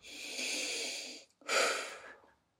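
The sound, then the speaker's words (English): A person breathes deeply, with two long, airy breaths separated by a short pause. The first is steady and sustained, and the second swells louder before fading out. No one speaks. “Now breathe.”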